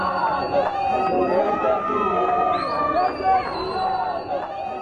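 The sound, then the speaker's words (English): A protest crowd in Pretoria railing against the cost-of-living crisis produces a continuous hubbub of chattering and shouting voices, with a few higher calls rising above the steady babble. “And that is the sound of people in Pretoria railing against the cost of living crisis in the country.”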